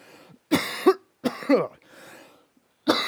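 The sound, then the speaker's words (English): Coughing and throat clearing from someone with something stuck in their throat: a few harsh, loud bursts in quick succession, then a softer, rasping clear before another cough begins at the end. “Excuse me. Oh, I got something stuck in my throat.”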